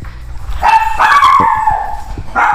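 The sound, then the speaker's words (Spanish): A small female dog barks a few times, giving loud, high, sharp yips with a whiny, drawn-out edge between short pauses. “perdón, como siempre mi perrita y sus exabruptos, ¿no?”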